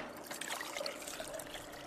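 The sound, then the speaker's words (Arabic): Water trickles softly as it is poured into a powder mixture (powder number 3) during paper document conservation work. The pour is faint and steady, lasting about two seconds with no voices. “زيد الماء شوي.”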